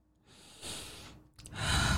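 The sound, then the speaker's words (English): A person breathing in and then out: two loud, airy breaths, the first a smooth inhale and the second a fuller exhale after a brief pause, with no talking. “inhale and exhale.”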